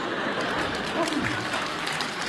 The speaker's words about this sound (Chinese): 全被征服了，来点掌声好吗？哎呦，哎呀，楼上都鼓掌。